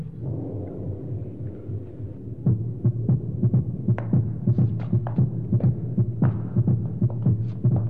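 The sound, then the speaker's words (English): An amplified heartbeat throbs in a steady, repeating rhythm of low, muffled pulses over a continuous hum. The beats grow stronger after the first couple of seconds and keep an even tempo throughout. “What you hear is your heartbeats. Kind of a knocked-out tempo, ain't it?”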